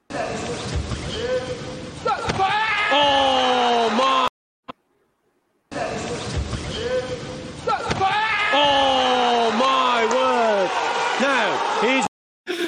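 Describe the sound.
A kick landing in a fight is replayed twice: the same short stretch of a sharp thudding impact repeats, separated by a brief gap, with excited voices talking loudly over each replay.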